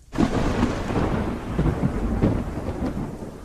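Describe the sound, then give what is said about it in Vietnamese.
Heavy thunder crashes in with a sudden, loud onset and keeps rumbling for several seconds, swelling with a few rolling peaks as it goes on, with no voices present. “Hai tiếng sét nữa vang đượm, bầu trời sáng rực thêm hai lần nữa rồi mới tắt ngấm.”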